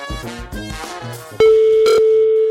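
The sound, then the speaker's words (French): A phone line is dialed for a live on-air radio contest call. Brief tones give way to a loud, steady, unbroken dial tone that holds to the end. “je vais appeler quelqu'un en direct, et si ça sonne chez vous, ça veut dire que vous êtes l'heureux ou l'heureuse gagnante. Attention, j'ai un numéro, je lance la machine.”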